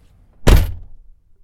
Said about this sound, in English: Close the door.